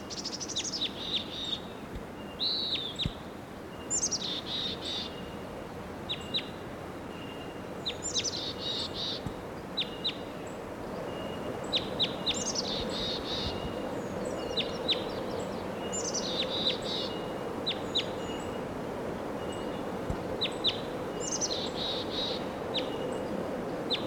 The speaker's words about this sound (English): that wild bird.